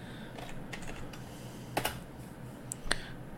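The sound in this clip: Keys are typed on a computer keyboard as a web address is entered. The keystrokes are faint and sparse, with a few sharper clicks standing out.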